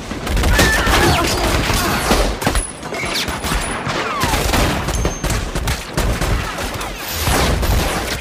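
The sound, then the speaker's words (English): Gunfire as everyone opens fire in a film scene: dense, continuous volleys of overlapping gunshots roar without pause, with a few sharp high-pitched whines cutting through the barrage. “"Stiglitz. See how feeders into your Nazi boss." And they all open fire.”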